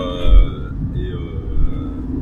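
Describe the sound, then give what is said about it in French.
Low road and engine rumble fills the interior of a car being driven to a train station. The rumble is steady, with a couple of brief swells in loudness. “il y a du bruit, c'est moins optimal et je suis en train de conduire donc vous m'excusez à l'avance si je bafouille un peu”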